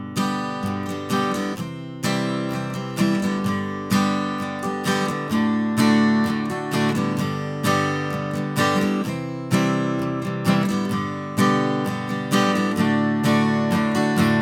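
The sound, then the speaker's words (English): A guitar plays a steady, repeating strumming pattern, with full ringing chords and regularly accented strokes that keep an even rhythm for about fourteen seconds. No one talks over the playing. “So that strumming pattern goes like this.”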